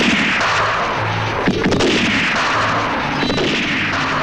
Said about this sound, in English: A rifle that never misses.